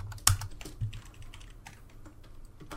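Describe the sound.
Someone types on a computer keyboard, entering a search term in an uneven run of key clicks, a few sharp strikes at the start followed by lighter, quicker taps.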